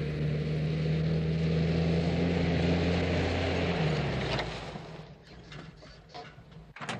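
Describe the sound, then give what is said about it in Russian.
Ambulance engine droning steadily as the vehicle drives along a road to a hospital, then dropping off abruptly partway through as it stops, leaving a quieter stretch with a few soft knocks and rustles. “Скорая помощь едет по дороге и останавливается возле больницы.”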